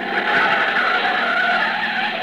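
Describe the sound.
An old pre-war car is driven hard and skids, giving a loud, continuous squeal of tires mixed with engine roar that holds steady without a break.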